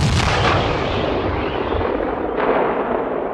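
A gunfire volley follows a shouted command to fire, producing a loud, dense, roaring crash. A second sharp burst comes near the end as the din slowly tails off.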